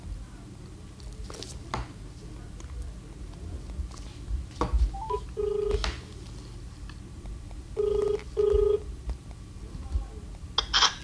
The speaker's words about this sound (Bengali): ওনার সাথে ফোনে যোগাযোগ করছি।